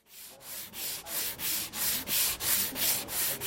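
Wood being sanded by hand in a carpentry workshop: rhythmic back-and-forth rasping strokes, about ten even passes in a regular cadence, quiet and with no talk.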